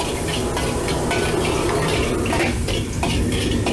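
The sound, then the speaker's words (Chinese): Metal utensil scraping and clattering in a pan while minced ginger and garlic are stir-fried in hot oil, with irregular knocks and scrapes over a constant bright hiss and no talk. “锅中加入少许热油，加入剁好的姜蒜末爆香”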